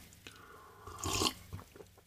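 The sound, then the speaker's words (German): A single short slurp of tea sounds as a brief, noisy burst in the middle, set against faint, quiet background sounds. “Na, noch einen Schluck Tee.”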